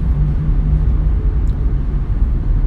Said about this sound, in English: I'm just driving along. I figured I'd do my podcast driving again.